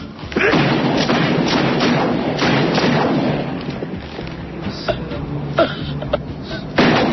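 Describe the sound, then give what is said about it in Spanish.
Gunshots from a 1985 western film soundtrack: a few sharp reports rising out of dense, continuous rumbling noise throughout. “Bueno, pues si faltaban tiros, un poquito más.”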